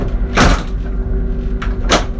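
A bathroom door lock is worked: one clunk, then after a pause two quick clicks of the latch, over steady background hum.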